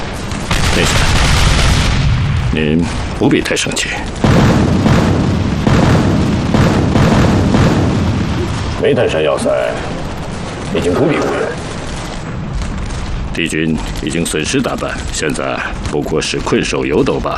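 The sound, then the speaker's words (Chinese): Artillery shelling of a fortress, heavy booming explosions and rumbling blasts going on almost without a break while people talk over the bombardment. “命令他们再次进攻，加强炮击，把毒气弹全都打过去。 命令炮兵阵地追加一个战术单元，立即发射。”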